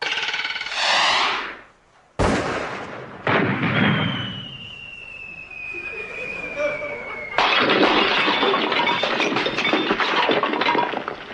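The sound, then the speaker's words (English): Shotgun blasts at released clay targets during a shooting party: a few sharp, loud bangs, each with a long rumbling tail, and a steady whistling tone running between them. “you will release the clays on the command, Oh, Here's your gun, your lordship”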